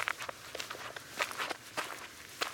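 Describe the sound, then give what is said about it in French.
A zebra walks on four legs, making many soft, quiet footsteps in an uneven, shuffling rhythm, with no other sound over them. “En route. Je marche à quatre pattes.”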